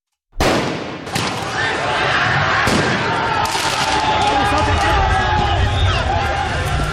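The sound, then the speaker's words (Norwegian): Football rioting in France after Paris Saint-Germain won the men's Champions League, a sudden loud roar of crowd noise and commotion with a few sharp, bang-like blasts cutting through the dense, continuous din. “Dette lyden av omfattende fotballbråk i Frankrike i går kveld og i natt. Etter at de franske mestrene Paris Saint-Germain vant mesterligaen i fotball for menn, kom feiringa ut av kontroll flere steder.”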